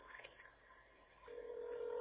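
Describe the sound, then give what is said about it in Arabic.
A telephone call tone sounds as the line connects: after faint, muffled noise, a single steady tone starts partway through and holds unbroken to the end. It is quiet overall. “هذا الاتصال. سامعين صوت الاتصال؟”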